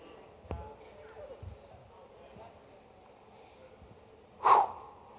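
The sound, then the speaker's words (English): Heavy breathing while catching breath, ending in one loud, breathy exhale after a stretch of quieter, softer breaths and small noises. “Whew. I'm just catching my breath.”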